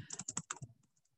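Typing on a computer keyboard to post in the chat during an online workshop: a quick burst of crisp keystrokes that thins out into a few lighter, fainter taps.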